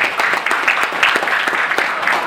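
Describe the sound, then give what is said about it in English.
Audience applause for conference speakers, presenters and discussants. Dense, loud and steady clapping from many hands holds at an even level throughout, with no pauses. “I really want to give a round of applause to all the speakers and presenters and discussants.”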